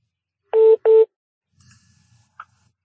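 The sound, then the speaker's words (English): An incoming phone call alert sounds as two identical electronic beeps in quick succession. The tones are steady and fairly loud, followed by faint low rumbling and a brief soft blip. “Someone is having a call coming in.”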